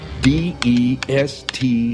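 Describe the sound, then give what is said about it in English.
Typing on a computer keyboard: a few distinct key presses, spaced fairly evenly, under a person speaking in short syllables. “Well, what are you waiting for? Go for it. Just type it out and hit return.”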